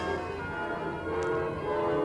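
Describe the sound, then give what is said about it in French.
Ambience of the Gare de Lyon train station in Paris: a steady low rumble and layered mechanical hum hold throughout at an even level, with no voices. “Oui, je suis à la gare de Lyon.”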